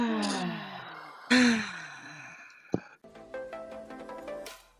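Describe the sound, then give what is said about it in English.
A group takes a deep breath and exhales through their mouths. Several people's voiced sighs and moans overlap, one loud exhale stands out, and some tones fall in pitch as they trail off. “Let's breathe. Big inhale. Exhale out of the mouth.”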